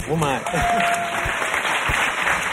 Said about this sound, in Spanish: subir aquí y responder delante del público por sorpresa se merece un premio y este aplauso.